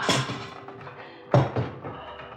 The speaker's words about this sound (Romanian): Ionică, deschide sipetul. Ridică capacul!